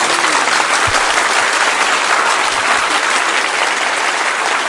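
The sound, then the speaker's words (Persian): Audience applause at a Persian devotional chanting gathering: a dense, steady wash of many hands clapping, loud and even throughout, with no voices over it. “یه کف خوشگل بزن.”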